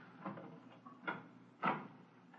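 A door is opened as a radio drama sound effect, heard as a few faint wooden thumps and creaks spaced apart, with the last one loudest.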